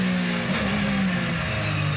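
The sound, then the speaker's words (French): A 560-horsepower car engine accelerating at 210 km/h roars loudly and continuously under broad wind and road noise, with a steady engine tone running through the whole brief stretch. “Je peux dire que le moteur il est plein. Les 560 chevaux, on les sent bien. Et ils sont partout, à tous les régimes.”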